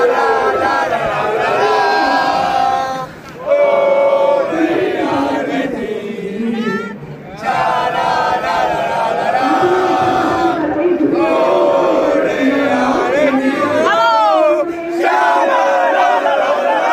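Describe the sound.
Football players cheer and chant loudly to celebrate their team's first league title: a dense, continuous mass of shouting voices with rhythmic chanted phrases and a few brief dips in loudness.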